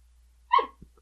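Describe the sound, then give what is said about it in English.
A dog gives a single short, sharp bark, a brief fairly high-pitched yip with no talk around it. “That was my dog guessing.”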